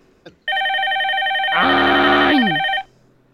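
Telephone ringing with an incoming call: one continuous electronic ring tone lasting about two seconds, briefly thickened in the middle by a louder, lower overlapping tone, then stopping abruptly.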